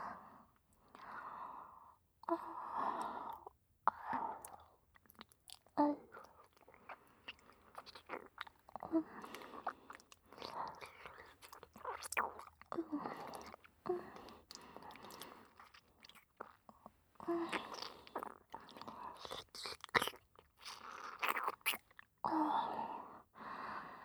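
Wet tongue licking and mouth sounds, made softly in many irregular smacking and slurping bursts with brief pauses between them, quiet throughout.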